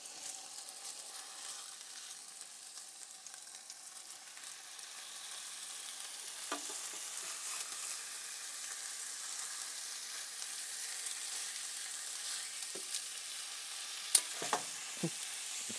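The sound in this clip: Food sizzles and fries in a pan as it is turned over with a spatula that sticks and then springs open. A steady bright sizzle runs throughout, with a few sharp clicks and scrapes near the end.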